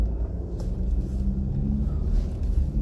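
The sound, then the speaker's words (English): Car driving through Detroit, heard as a steady low rumble of engine and road noise that drones on without breaks and with no talk over it. “I'm driving through uh, Detroit.”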